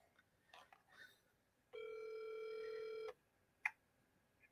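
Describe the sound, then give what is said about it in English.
Telephone tones while a call is placed: a few faint clicks and beeps, then a steady buzzing tone lasting about one and a half seconds, followed by one short, sharper beep, all fairly quiet. “So we're going to call. I need some dialing music.”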